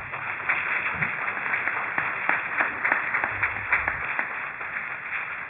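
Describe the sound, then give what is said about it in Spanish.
Congregation applause in a church, clapping in praise of Christ; many quick, fairly regular claps blend into a steady, muffled patter, rather faint and dull-toned, lasting several seconds without voices. “Denle un aplauso a Cristo por eso.”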